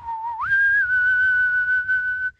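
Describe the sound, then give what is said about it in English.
A person whistles one long note that slides upward near the start and then holds a steady, clear pitch for about two seconds before stopping abruptly. “Should I whistle?”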